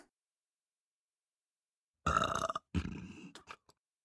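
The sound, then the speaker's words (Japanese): A young woman burps after overeating fried chicken and feeling heartburn, after a long silence. The burp is low and gurgling and comes in two throaty bursts, the second trailing off in small croaks. “あ、やだ、ゲップ出ちゃった。”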